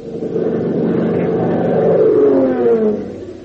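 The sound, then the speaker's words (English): A black sedan speeds down a state highway, its engine a loud, steady roar whose tone swells and climbs slightly midway before easing again, heard without voices. “a black sedan speeds down the state highway with Ramon at the wheel.”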